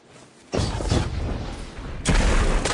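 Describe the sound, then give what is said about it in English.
Sniper rifle fire from a Bungie video game in player-versus-player combat: two heavy, booming shots, each a broad blast that rolls on into a long, rumbling tail. “Bungie actually released a clip of how they've adjusted the sniper rifle. Let's take a look at that”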